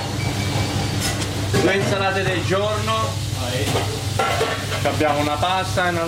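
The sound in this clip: Guanciale sizzles in a frying pan for carbonara in a busy restaurant kitchen in Geneva. A steady crackling fry runs throughout beneath a voice that talks over it.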